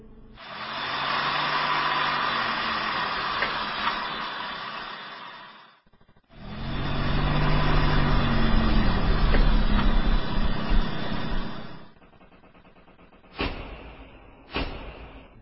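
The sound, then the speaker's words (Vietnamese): Two cars pull into a yard one after the other and park nose to tail. Each engine rumbles steadily for several seconds with a short gap between them, and two sharp thuds follow at the end. “xe của cậu Hoàng với xe của vợ chồng thằng Nghiệp tiếp nhau vô sân đậu nối đuôi.”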